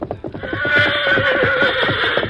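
A horse without its saddle whinnies loudly over a quick, regular clip-clop of hooves as it arrives after hard running, the wavering neigh holding through most of the stretch while the hoofbeats continue underneath.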